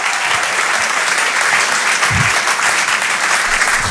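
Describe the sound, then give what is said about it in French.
A comedy club audience applauds loudly, with continuous dense clapping that holds an even level from start to finish and no pause or fade. “Mesdames et messieurs, faites du bruit pour Guillaume, s'il vous plaît, Guillaume.”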